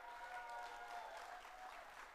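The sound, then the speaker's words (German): Steady applause from an audience during a prize-giving between competition rounds: a dense, continuous patter of clapping that holds at an even level throughout, with no break. “Okay, und noch einen viel größeren Applaus für Dora, die Datenkrake.”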